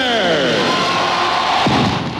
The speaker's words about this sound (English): The crowd roared in the Kingdome as the Mariners took the field against the Chicago White Sox in the earliest opening day game ever for Major League Baseball.